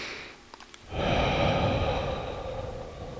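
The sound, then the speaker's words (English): A big deep breath, a long, loud, airy rush of air held steadily for about two seconds, preceded by a few faint small clicks. “I'm going to take a big deep breath because I'm feeling like a radical shift in my energy.”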